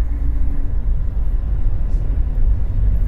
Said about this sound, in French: Le taxi roule sur une corniche qui longe la Méditerranée.